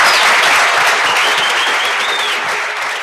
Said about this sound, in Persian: به افتخار آقای دکتر یه دست.